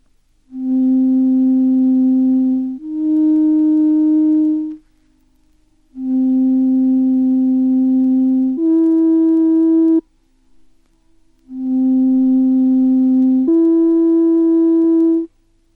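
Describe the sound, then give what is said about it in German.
Pure sine tones sound acoustically exact third intervals: three loud, steady pairs in which a lower tone is followed at once by a higher one. Short silences separate the pairs, and no voices are heard. “So zum Beispiel, wenn Sie jetzt die folgenden in der Akustik genau definierten Terzintervalle hören.”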